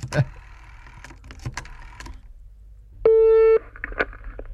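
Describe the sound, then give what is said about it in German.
Telephone number being dialled on a desk phone: a few sharp clicks and soft clatters, then a single steady electronic tone held for about half a second, followed by more faint clicks. “Ja, ich habe ja direkt auch den Telefonapparat hier vor mir stehen. Und dann haben wir schon vorbereitet eine Nummer rausgesucht. Und die wähle ich jetzt einfach mal an.”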